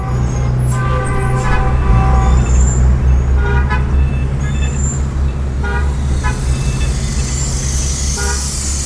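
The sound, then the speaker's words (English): Dense street traffic in modern Beijing roars steadily as a bicycle rider heads into it. Several short car horn toots sound over the rumble during the first half, and the noise stays loud and continuous. “Lao Wong gets on his bicycle and rides out of his beloved Hutong into the wall of sound known as modern Beijing.”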